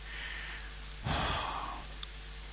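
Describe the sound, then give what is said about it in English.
A deep inhale, one airy, breathy rush lasting well under a second that rises out of a low, steady background hum and then fades away. “And inhale deeply.”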